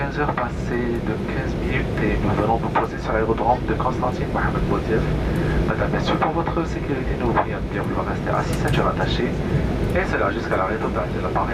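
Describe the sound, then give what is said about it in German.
An airplane drones steadily on its afternoon landing approach to the airport at Constantine, a low, even engine rumble running beneath voices talking throughout. “Anflug auf Konstantin. Es ist Nachmittag. Landung am Flughafen Mohamed Boudiaf.”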